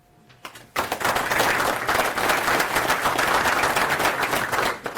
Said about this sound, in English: A round of applause, please, for Paul Meyer